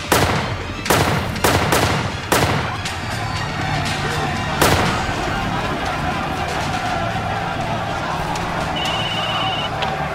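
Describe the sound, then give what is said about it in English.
Gunshots at a cinema: several sharp, loud cracks in an irregular burst, then one more shot after a pause, over a constant noisy background. “It's really loud here, but I'm kind of freaking out. I think I just heard gunshots. I mean, there are lots of gunshots”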